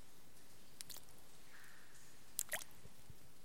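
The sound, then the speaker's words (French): Water drops falling from a cave ceiling, a few sparse, sharp plinks against near silence and a faint steady hiss. “En marchant vers le fond de la grotte, on s'arrête quelques secondes. Les gouttes d'eau tombant du plafond brisent le silence.”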